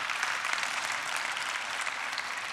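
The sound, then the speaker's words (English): A church audience applauds to welcome viewers joining online, with dense, steady clapping from a large crowd that holds an even level throughout. “Let's put our hands together and welcome everybody that's joining us.”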